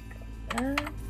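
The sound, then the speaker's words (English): Someone types a password on a computer keyboard, a few quick, crisp key taps over a faint steady hum. “All right. And then I type in the password.”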